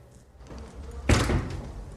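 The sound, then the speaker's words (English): A cell door being pushed shut, landing as one heavy, dull slam that rings out briefly over a low background hum. “Frank goes to the open door of the cell and closes it.”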